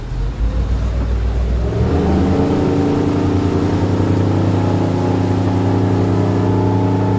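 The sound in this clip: A motorboat engine opened up to full throttle gives a loud, continuous droning roar. It grows fuller and heavier after about two seconds, then holds steady to the end.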